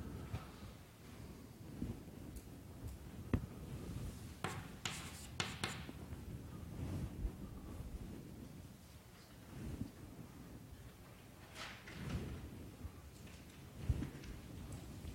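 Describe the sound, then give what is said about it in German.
Faint scratchy strokes of writing on a board during a maths lecture, a steady run of rubbing and tapping marks with no talking. “Ich schreibe es mal hin.”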